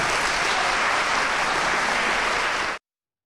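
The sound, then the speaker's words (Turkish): Dense, steady applause from an audience after a student theatre show with poetry and recitals, a continuous even roar of clapping that cuts off abruptly near the end. “Öğrencilerin hazırladığı tiyatro gösterisi, şiir ve dinletiler büyük alkış topladı.”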